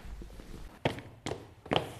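Footsteps walk across a hall where helicopters and gondolas hang, a few soft, irregular thuds over a steady background hiss, with no talking.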